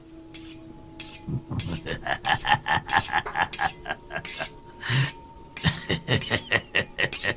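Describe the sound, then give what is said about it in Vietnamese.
A knife is sharpened against the bottom of a small bowl with rhythmic rasping scrapes. Many quick strokes come in bursts separated by short pauses. “lão miết miết con dao vào cái đít cái bát con. Trong đêm mưa lạnh lẽo, trong cái không gian ma quái, tiếng mài dao nghe đến kinh dị.”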